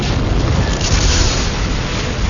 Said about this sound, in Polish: I wtedy zobaczył oślepiający błysk, a fala gorącego powietrza zwaliła go z nóg. Eksplodował ładunek 6 ton trotylu, przykryty plandeką na skrzyni ciężarówki.